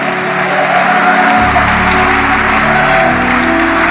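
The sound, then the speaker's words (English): Loud, steady clapping from a church audience at the close of a sermon, continuous and dense from start to finish. “hallelujah, clap for Jesus. Clap for Jesus.”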